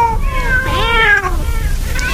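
Several hungry cats waiting to be fed meow loudly, their drawn-out, wavering calls overlapping one another throughout.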